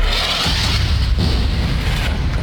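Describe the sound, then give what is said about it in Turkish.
Explosions from an Israeli warplane airstrike on a residential area of Deir el-Belah in Gaza. They come as a dense, loud, continuous roar of deep booming rumble with no distinct separate blasts. “İsrail savaş uçakları bölgeyi bombaladı. Saldırı anı kameralara da yansıdı.”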